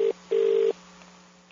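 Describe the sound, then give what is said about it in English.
Telephone tones as a number is redialed: a brief steady beep cut off at the start, then a longer steady tone at the same mid pitch, followed by faint line hiss. “I'm going to dial it again.”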